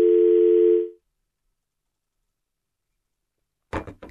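A telephone dial tone after a dropped call-in line: one steady, mid-pitched tone lasting about a second, then silence, then a short burst of rustling noise at the very end.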